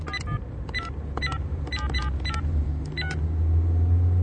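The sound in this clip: Telephone dialing tones as a call is placed: several short electronic tone bursts in an uneven sequence over a steady low rumble.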